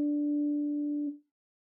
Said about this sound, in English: So that gives us the B natural, and then we have those other tones as well.